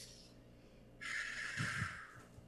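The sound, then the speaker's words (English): A deep breath is drawn in through the nose during a guided deep-breathing exercise. It is a steady, airy, hissing inhale of about a second, fairly soft, and no one talks over it. “we're going to take 4 deep breaths. And we're going to take it in through our nose and out through our mouth.”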